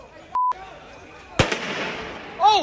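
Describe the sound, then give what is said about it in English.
Gunfire from a played video of a shooting. A short electronic beep comes first, then one sharp bang that trails off into noise, and another loud burst near the end. “video of the shooting. You could sort of see what happens. Let's play that.”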